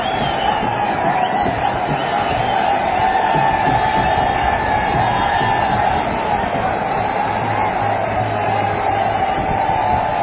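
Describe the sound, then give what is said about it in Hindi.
A huge crowd of cricket fans cheers and shouts on Marine Drive in Mumbai, standing in the rain to welcome the Indian team: a dense, continuous roar of many voices that stays loud throughout. “भारतीय ध्वजस्थान में India India Mumbai का राजा रोहित शर्मा और boom boom Bumrah के नारे लगाते ये fans बारिश में भी अपने चैंपियंस की एक झलक के लिए डटकर खड़े”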